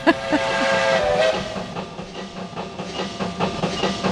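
A loud steam-train whistle as a train arrives: a strong sustained hooting tone with hiss that fades after about a second, then a rhythmic pulsing rail rumble.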